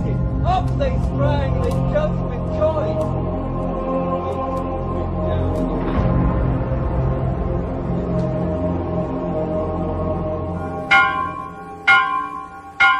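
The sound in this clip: Church bells ring in a dense, sustained peal of overlapping tones that hums on steadily, followed by a few sharp, distinct strikes near the end.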